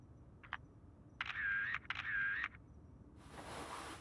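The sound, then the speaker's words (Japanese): Camera shutter firing as a photo is taken: a couple of short clicks, then two sustained mechanical whirring bursts, followed by a softer stretch of hiss. No voices are heard. “これはスクープです。写真に撮りますね。”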